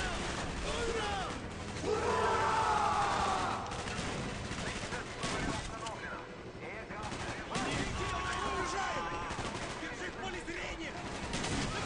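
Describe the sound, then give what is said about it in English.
Gunfire in a first-person shooter video game as a character shoots a lock in an armory. Loud bursts of shots sit within dense, continuous game noise, with voices talking over it. “Shoot the lock, Mason”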